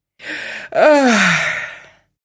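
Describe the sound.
A human voice performs a long yawn for a character waking up in a sleeping box: a short sharp intake of breath, then a drawn-out, voiced exhale that slides downward in pitch and fades out.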